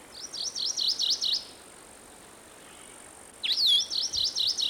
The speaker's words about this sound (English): That's a McGilvery's warbler in the background at the end there.